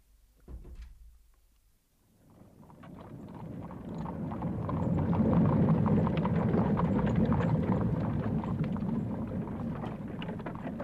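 An envoy's horse-drawn carriage departs. After a short knock, a clattering, rumbling roll swells and then holds steady.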